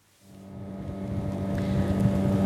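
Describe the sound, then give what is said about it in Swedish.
A motorboat engine drones on the Patía River near Tumaco in southern Colombia. The steady hum with a layered tonal whine rises from near silence and grows gradually louder over the whole stretch. “Nu åker jag på floden Patía i södra Colombia, i nära kuststaden Tumaco.”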